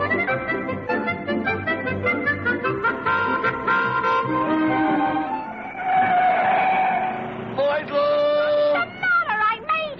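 Tires squeal as a car takes a corner fast, with engine noise underneath. Loud, wavering screeches shift in pitch and run through the whole clip.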